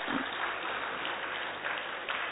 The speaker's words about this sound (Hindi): एक बार अपने ही स्वागत में आप सभी जोरदार तालियां बजाएं।